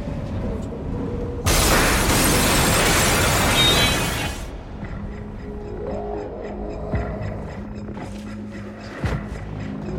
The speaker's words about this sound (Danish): Og jeg vil gerne lige spille en lille bid af traileren, så vi kan komme i stemning. Også bare lige, så vi ved, hvad det er for en type af film, vi har med at gøre. Og vi tager lidt af traileren, den kommer her.